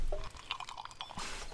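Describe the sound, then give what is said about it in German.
Wet gulping of a deep swig of cold, fizzy lemonade: a few soft liquid clicks and swallows, then a steady, bright fizzing hiss at the end. “Ich jedenfalls gönne mir jetzt einen tiefen Schluck kalter, prickelnder Limonade.”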